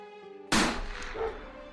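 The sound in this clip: Warning gunfire is shot into the air by police and border guards during a confrontation. A sudden loud blast with a long decaying tail cuts in after soft tonal music.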